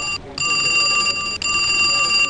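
A telephone at an emergency dispatch center rings with a steady, high electronic tone, a faulty, jamming line that rings almost continuously, broken only by two brief dropouts.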